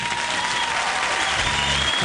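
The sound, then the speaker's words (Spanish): Standing applause fills a broadcast booth as a guest enters. Steady, dense clapping holds throughout, without pause. “Con un aplauso, señor, de pie, en serio.”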